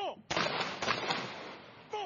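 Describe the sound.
Ceremonial gun salute fired by a police guard unit at a memorial ceremony: a few loud, sharp blasts with long rumbling tails run together, with brief fragments of a speaking voice just before and after.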